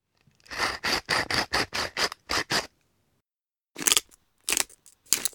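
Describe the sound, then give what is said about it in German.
Pepper ground in a mill while making salad dressing: about eight quick, crunchy grinding bursts in a row, a short pause, then a few more sharp crackly turns. “Wir nehmen einfach ein bisschen Essig und ein bisschen Öl, Salz und Pfeffer aus der Mühle”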